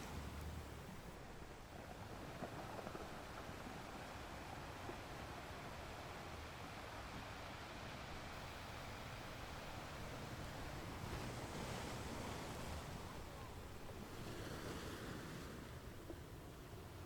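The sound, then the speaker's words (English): Ocean waves surging and washing in a continuous broad roar, with fuller swells rising late in the stretch and a light breath of wind mixed in; no voices. “relaxing into the timeless, never-ending ebb and flow of the sound of the waves.”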